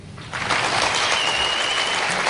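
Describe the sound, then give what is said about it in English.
Audience clapping to vote on which science claim is the fiction; after a near-silent moment the applause swells quickly and stays as a steady, dense clatter to the end. “you should applaud for the one that you think is the fiction. So how many people in the audience think that number one about Google making you dumb is the fiction?”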